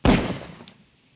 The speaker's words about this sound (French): Tu crois que c'est facile de tirer une balle à bout portant ? Ferme ta gueule, tire où tu le regretteras. Tire dans la tempe, là.